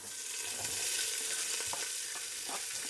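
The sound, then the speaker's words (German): Onion and bell pepper frying in bacon fat, a steady hiss of sizzling oil with faint stirring scrapes and crackles mixed through it, with no talking. “So, und da wird jetzt äh, das Gemüse angebraten.”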